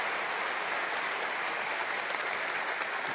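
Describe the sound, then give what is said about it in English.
An audience gives a round of applause: dense, steady clapping with no gaps, a continuous crackling wash of many hands at even loudness throughout. “I'd really like to give them a round of applause because they've done a great job.”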